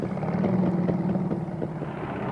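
An early aircraft's piston engine runs with a rough, continuous mechanical drone, steady and fairly loud throughout, with no voices over it.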